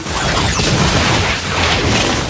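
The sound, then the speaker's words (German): A gunpowder-packed tobacco pipe blowing up: a loud, dense roaring blast of noise that fills the whole clip without letup, with no voices. “Rums, da geht die Pfeife los, mit Getöse schrecklich groß”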